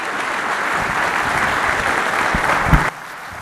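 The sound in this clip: Applause from an audience welcoming a speaker to a morning men's gathering: dense, steady clapping holds at an even level, then cuts off abruptly near the end.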